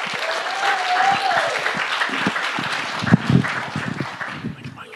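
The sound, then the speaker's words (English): A church audience applauds to welcome a speaker with steady, dense clapping, a short whistle early on and a few sharper claps toward the end. “So would you guys put your hands together and give Doug a warm Revision welcome this morning.”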